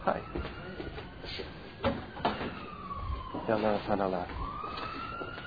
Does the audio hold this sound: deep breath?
no